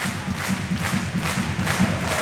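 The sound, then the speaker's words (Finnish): An ice hockey crowd in Kouvola cheers and chants, with a rhythmic low thumping beat pulsing steadily beneath the roar of the arena audience. “Yleisö mahtavasti mukana Kouvolassa.”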